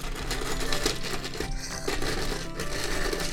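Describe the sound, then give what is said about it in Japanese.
A hand-cranked shaved ice machine grinds and crushes ice, giving a continuous gritty crunching with rhythmic pulses from the turning crank and a short dip near the middle. “これはかき氷を潰してる音です。”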